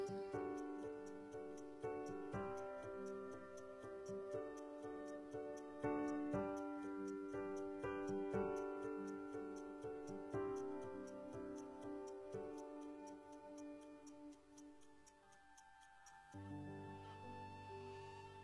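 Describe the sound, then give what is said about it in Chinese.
A clock ticks steadily and evenly, its many crisp ticks running on top of a song's music, which plays throughout at moderate level before thinning out near the end. “这是听到时针滴滴答答走的声音，也是岁月流过的声音”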